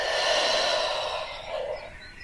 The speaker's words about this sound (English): Take a nice deep breath into your belly. And let it go.